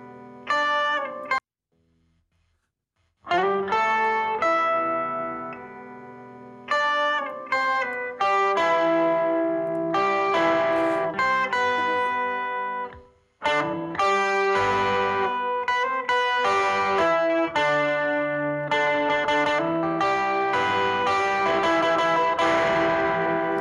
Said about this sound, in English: where's the guitar at? I thought I had the guitar, but it was my voice. Here's the guitar.